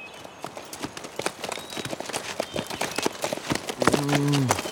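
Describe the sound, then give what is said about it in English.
Horses walking with hooves clip-clopping, two horses carrying a makeshift stretcher of blankets and poles, with many irregular hoof strikes at a steady, moderate loudness. “He was being carried between two horses.”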